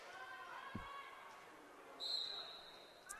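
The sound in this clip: A volleyball bounces on the floor before a serve in a volleyball match. One dull thump lands early over steady background noise.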